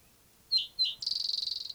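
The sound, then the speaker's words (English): A songbird gives two sharp, high chirps and then a rapid, even trill of many quick notes at a similar high pitch, loud and clear with nothing else heard. “same bird, different song.”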